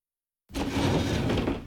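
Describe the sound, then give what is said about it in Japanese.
A sliding door is pulled open vigorously, breaking sharply out of silence into a continuous rumbling, scraping slide that holds steady and then tails off. “威勢よく引き戸を開けるが、何の反応もない。”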